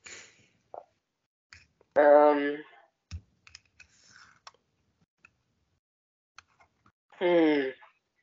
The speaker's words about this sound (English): I'm cutting my toenail.